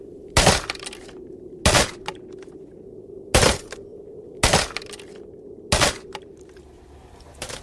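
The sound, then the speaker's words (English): A 14-pound sledgehammer smashes a tape recorder with five loud, sharp crashing blows at uneven intervals, followed by a faint final knock, with no talk. “please don't smash my tape recorder with that 14-pound sledgehammer”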